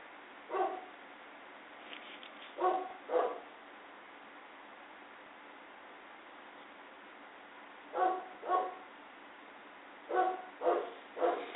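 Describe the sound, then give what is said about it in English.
A dog barks faintly over a steady hiss, in scattered bursts of one to three sharp barks separated by pauses of several seconds. “That was the dog barking, so nothing to be alarmed about.”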